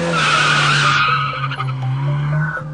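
A car speeds off in a story sound effect as a detective and a police chief drive out at night. A loud, high tire squeal rides over engine noise and fades slightly toward the end.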